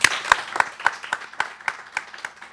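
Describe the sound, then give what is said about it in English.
Audience applause welcoming an author at a bookstore event: distinct, even claps repeat at a steady rhythm, roughly four per second, with no voices over them. “Please give a warm, warm Pills and Community Books welcome to Dr. Ballou.”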